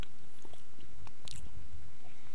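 Someone chews bakery food with moist smacking and scattered crisp clicks, fairly faint over a steady background hiss.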